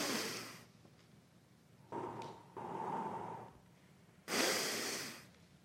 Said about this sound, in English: We're going to take a couple breaths together, okay? Take a deep breath in.